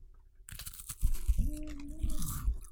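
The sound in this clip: Crisp crunching and chewing of puff-pastry crackers, with several sharp bites standing out among a steady run of smaller crackles, loud and close-miked in a quiet setting.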